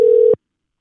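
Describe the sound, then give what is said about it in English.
One short, steady telephone tone at a fixed mid pitch sounds for about a third of a second as a call is being dialed, then cuts off into silence. “we'll give him a call here. All right. We're dialing.”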